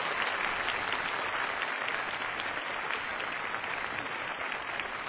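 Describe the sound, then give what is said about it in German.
Steady applause at a lecture event as the question session closes and the speaker is thanked. The clapping is dense and even from start to finish, moderately loud, with no voices over it. “Applaus”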